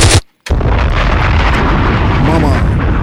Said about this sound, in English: Bombs!